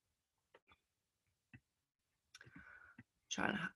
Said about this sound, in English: So there's my button here. Let's click this.